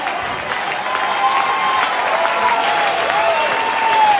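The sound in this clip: A baseball crowd applauds and cheers as fans rise behind a pitcher working a two-strike count. The loud, steady wash of clapping and voices swells slightly toward the end.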